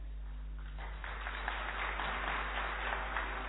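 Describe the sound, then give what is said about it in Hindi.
Hands clapping in welcome as a gathering greets a guest speaker, rising out of a low steady hum after a brief quiet start into continuous, muffled applause that stays fairly faint. “आप फूलों के द्वारा शिवानी बहन का स्वागत करेंगे और हम सब तालियां बजाकर”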